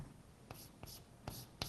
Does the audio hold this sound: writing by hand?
yes